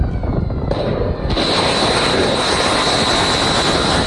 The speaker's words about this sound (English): Sound of Tomahawk cruise missiles being launched on Wednesday